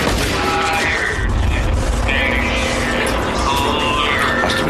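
Elevator machinery grinds and whirs in a continuous, dense mechanical wash with thin tonal whines drifting through it, steady in loudness throughout.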